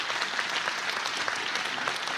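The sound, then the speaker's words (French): Audience applause at a conference evening in Plozevet, a steady dense wash of many hands clapping throughout, with no voices over it. “Merci pour ces applaudissements.”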